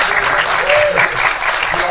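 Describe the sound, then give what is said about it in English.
An audience bursts into steady applause at a game show, a dense, loud wash of clapping that continues throughout, with a voice briefly heard over it. “So give Hazard and Pyro a round of applause.”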